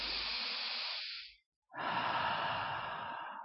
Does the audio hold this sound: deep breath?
yes